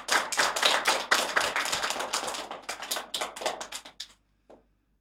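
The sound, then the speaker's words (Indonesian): Lively audience clapping welcomes a student about to give a speech: a fast, dense patter of many hands that breaks off abruptly near the end, followed by a single stray clap and then quiet. “Mari kita sambut Jaden dengan tepuk tangan yang meriah.”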